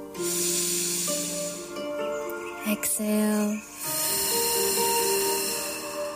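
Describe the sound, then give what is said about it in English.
A deep breath in and a long exhale during a guided meditation, heard as a broad, airy hiss in two long phases separated by a short pause, over soft sustained tones. “Taking a few more deep breaths in.”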